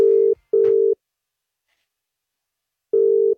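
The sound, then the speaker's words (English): Telephone ringing tone while a call is placed: a pair of short, steady, mid-pitched beeps, a long silent gap, then a third beep. “We're going to call your mum.”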